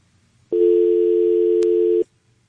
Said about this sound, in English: Everybody that we had a dial tone, I hope you will pick the phone back up.